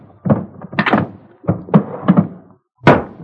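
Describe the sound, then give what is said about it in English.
A wooden box that holds short rifles has its lid closed: a run of hollow wooden thunks and knocks of varying loudness, then a brief pause and a final firmer thud. “Then he put the rest back in the box and closed the lid.”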